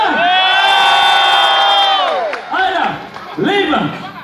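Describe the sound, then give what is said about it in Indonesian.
Crowd cheering and whooping at a concert, loud sustained voices for about two seconds, then two shorter rising-and-falling shouts. No distinct clapping stands out. “Tepuk tangannya gemuruh. Bisa? Yo, tepuk tangan triakannya mana?”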